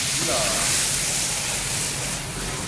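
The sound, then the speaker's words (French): Loud, steady hissing sizzle as drained pasta is dropped from a skimmer into hot olive oil in a frying pan, flaring up into flames; a broad, even roar of frying holds throughout. “À peine le temps d'égoutter avec une écumoire directement dans la poêle avec l'huile d'olive. C'est assez spectaculaire. parce que ça fait des flammes assez étonnantes.”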